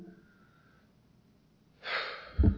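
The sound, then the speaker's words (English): A crowd of listeners inhales deeply together, producing a broad, airy rush of breath. A short, low burst follows at the very end, after a quiet stretch at the start. “Everybody take a deep breath.”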